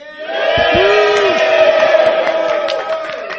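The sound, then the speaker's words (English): Cheering and whooping from a live studio audience at a convention panel, a brief swell of shouting voices that rises, holds and fades within a few seconds. “You have to project the audience. We have a live studio audience too.”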